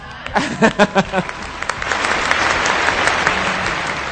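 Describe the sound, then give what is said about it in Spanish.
A burst of audience applause, loud dense clapping that builds and holds steady, with voices calling out over it at the start. “Y el aplauso para Avengers, gracias”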